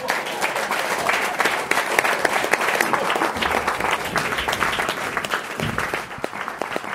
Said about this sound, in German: Dicht an dicht sitzen die Gäste beieinander und der Applaus am Ende reißt nicht ab.